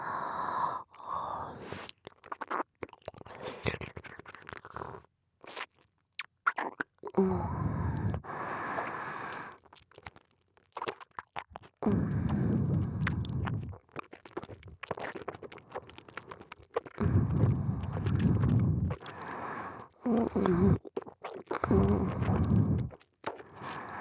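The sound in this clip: Crunchy food being chewed and swallowed, heard as many irregular crackling bites and crunches in loud bursts separated by brief pauses, carrying on throughout.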